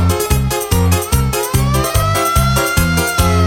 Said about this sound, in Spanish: Suena la sirena, llegaron los bomberos para apagar el fuego.